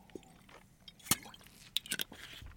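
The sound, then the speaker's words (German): Two people drinking at the same time make faint wet gulps and small clicks, with a sharper click near the middle and a quick cluster toward the end. Nobody speaks. “Jetzt haben wir beide gleichzeitig getrunken.”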